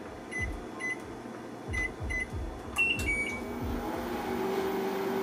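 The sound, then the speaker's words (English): A microwave oven cooks a large batch of potatoes on a 12-minute setting, giving off a steady low hum. A few short, high keypad beeps sound early on, along with soft rhythmic thumps, before the hum continues alone. “I am gonna throw them into the microwave. And because I have so many, I'm probably gonna set it for a while. So let's set it for 12 minutes to start.”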